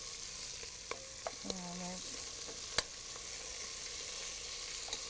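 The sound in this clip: Food sizzles softly while it browns in a frying pan, a quiet, steady hiss broken by a few faint clicks and knocks.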